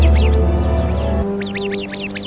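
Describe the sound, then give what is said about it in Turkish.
An Arabian babbler sentinel gives an alarm call on spotting a viper: a rapid series of sharp, chirping notes over a loud, steady low hum. “Nöbetçi Arap kuşu hemen alarm verir.”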